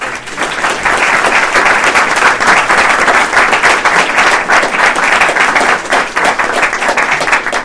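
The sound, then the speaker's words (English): Audience applause at the close of a panel discussion, a loud, dense wash of clapping that stays steady and full throughout, with only slight dips in intensity. “I also want you to give yourselves a hand of applause.”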